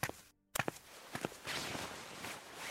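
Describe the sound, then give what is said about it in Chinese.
A few quick, light footsteps hurry forward, with a short pause near the start before more steps follow over soft background noise. “张晋忠唉声叹气，冷不丁看见两道人影由远及近，当即一喜，连忙快走两步迎了上去。”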